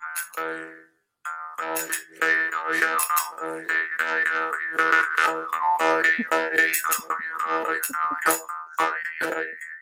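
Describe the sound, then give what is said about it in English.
A tiny jaw harp twangs in many quick, rhythmic plucks over a steady buzzing drone whose resonant tone keeps shifting. A brief gap near the start interrupts the otherwise continuous, moderately loud playing. “jaw harps. Teeny tiny instrument. I'm aware of what they are, but no idea how one would use them. Stick it in your gob and you twang it, basically.”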